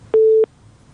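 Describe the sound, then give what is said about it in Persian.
A disconnect tone sounds as a telephone call is cut off, one steady mid-pitched beep lasting about a third of a second, then near silence. “متاسفانه که است تماس فریبا جان هم قطع شد.”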